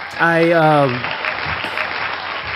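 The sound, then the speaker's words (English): Applause from a crowd of people clapping, a dense, steady patter that follows a brief voice at the start and carries on to the end. “claps going on”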